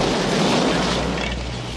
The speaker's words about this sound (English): The grenade explodes.